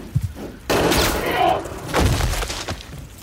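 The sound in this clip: A gunshot fired at an animal rings out as one sudden loud blast followed by sustained rumbling noise, with a second swell of noise shortly after and voices nearby.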